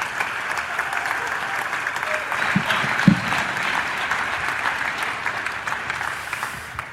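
A church audience applauds as a pastor and his wife are welcomed, with steady, dense clapping throughout and one sharper clap standing out midway.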